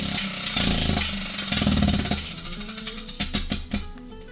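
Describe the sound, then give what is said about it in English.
A prize wheel spins during a game segment: a dense whirring rush gives way to a run of sharp clacks that grow steadily farther apart as the wheel slows to a stop. “we'll spin this wheel one more time”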